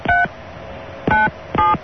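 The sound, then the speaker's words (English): Telephone keypad tones sound as a number is dialed: three loud, clean two-pitch beeps with uneven gaps between them, and no talking. “We researched the phone number of the guy in Buffalo. Good. Let's try to call him.”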